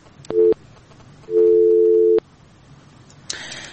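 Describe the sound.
A telephone busy signal as a call is cut off: a short steady low beep, then a longer one, followed by a brief burst of noise.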